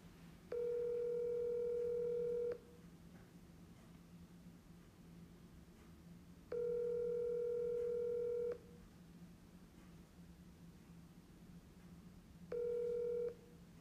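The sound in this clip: A telephone call rings out on speakerphone: three long, steady ringback tones evenly spaced several seconds apart, the last one cut short, over a faint hiss and hum.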